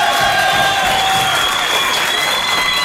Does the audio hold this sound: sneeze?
no